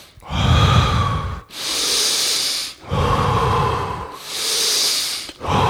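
Deep, full breaths during a guided breathing exercise. Loud, slow cycles alternate between a rough, lower-toned draw and a bright, hissing rush of air, about four breaths in a steady rhythm with no talking.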